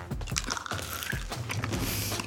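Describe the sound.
Biting into and crunching a crisp mint, with a few sharp, brittle crunches spaced through a run of steady chewing. No one speaks.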